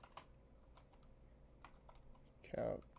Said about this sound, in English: I'm very bad at typing and I misspelled it even though I went so slow.